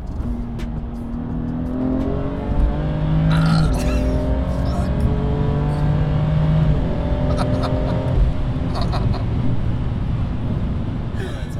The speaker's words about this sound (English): In this 8-second soundbite, we went from 80 to 200 kilometers per hour.